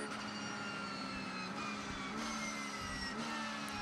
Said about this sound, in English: ran through the gears for the FAF Porsche number 9